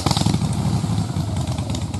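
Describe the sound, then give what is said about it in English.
A Harley-Davidson Pan America motorcycle engine revving, a loud, throbbing rumble with rapid pulsing firing beats held steady through a short burst. “Who needs a rev for Harley Heaven? The Harley Davidson Pan America is coming to Harley Heaven in Melbourne, Dandenong and Ringwood.”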